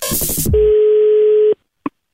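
A telephone tone sounds as a call is dialed: a short noisy burst, then a steady single-pitched beep holding for about a second, followed after a pause by one brief blip.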